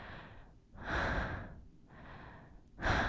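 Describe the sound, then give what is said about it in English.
Heavy, rough breathing of a person catching their breath: a few loud, hoarse inhale-and-exhale cycles in a steady rhythm, with no speech. “Let me catch my breath first.”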